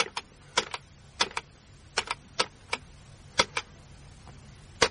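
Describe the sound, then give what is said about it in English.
A number is punched into a computer keypad as many sharp, clacky key presses in an irregular rhythm of single and paired taps. They sound fairly faint over a quiet background hum, and no voice is heard. “Right, I'll just punch out the number, like so.”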